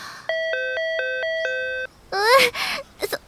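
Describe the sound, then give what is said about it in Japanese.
A doorbell-style chime is pressed repeatedly at a shrine, a rapid run of bright, evenly spaced electronic ding tones ringing steadily, followed by a short burst of vocal sound after the chiming stops. “そこはピンポン押すところじゃないと思います。”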